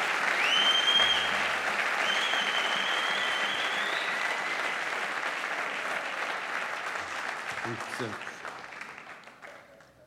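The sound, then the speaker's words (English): An audience applauds to welcome a guest speaker, with sustained, loud clapping that gradually thins and fades away toward the end. “And can we put a big hand together for Professor David Block?”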